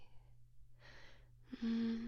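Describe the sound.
Deep breathing: two slow, faint breaths. The second breath is longer and carries a low voiced tone.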